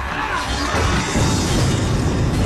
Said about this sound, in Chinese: 清军用大炮向驼城中段猛烈攻击，驼阵被撕开了巨大的口子